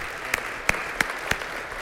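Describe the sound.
Hand clapping from a church audience at Fellowship Church welcoming a guest: four sharp, evenly spaced claps over a steady background hiss.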